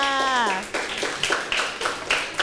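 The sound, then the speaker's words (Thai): Classroom clapping for a student who has just answered a question, a run of uneven claps that starts right after a short spoken voice and continues at a steady, moderate level. “โอ้โหเป๊ะมากเลยครับปรบมือให้เพื่อนค่ะ”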